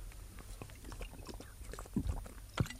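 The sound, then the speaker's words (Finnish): Soft gulps of someone drinking from a bottle, quiet wet mouth sounds with two fuller, more distinct swallows standing out near the end. “Näitkö, että join? Vielä muutama nielaus, koska on tämä ensimmäinen ja viimeinen kerta.”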